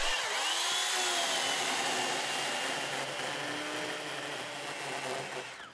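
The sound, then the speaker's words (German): A power saw cuts into beech wood to collect shavings for a moisture sample from a delivered load, a loud, steady buzzing whine that eases slightly toward the end. “muss eine Probe genommen werden. Dafür brauchen sie Holzspäne. Und einer. Es darf aber nicht irgendwo gesägt werden.”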